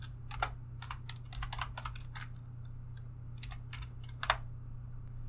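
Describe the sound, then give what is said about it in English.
Typing on a computer keyboard: many quick, irregular key clacks, faint and scattered over a low, steady hum. “Let me type it here.”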